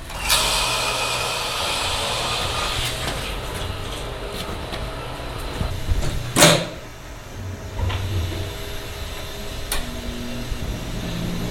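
Levers, switches and valves on a test furnace with a scrubber and gas and air lines are worked one after another, giving a run of mechanical clunks and clicks, one loud clack near the middle, over a steady machinery hum.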